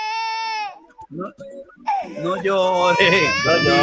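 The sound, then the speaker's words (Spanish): A baby cries in a loud, high wail, breaks off into a few short whimpers, then wails again at length with a wavering pitch. “No llores.”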